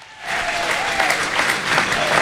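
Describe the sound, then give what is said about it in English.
Audience applause rises quickly after a brief quiet start into sustained, thick clapping that holds at an even level throughout. “Andy Moran, ladies and gentlemen, give me a huge round of applause.”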